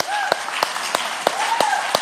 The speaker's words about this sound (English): I invite you to join me in a round of applause right now as an act of worship to God.